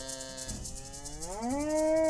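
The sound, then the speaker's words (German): A cow mooing on a summer pasture behind a converted old farmstead: one long, low, drawn-out call that swells and rises in pitch toward the end over a steady background hiss. “Auf der Weide hinter der gemütlichen Terrasse am alten, umgebauten Resthof von Sabine Weltmeier grasen Kühe. Daneben rupfen ein paar Pferde das grüne Gras.”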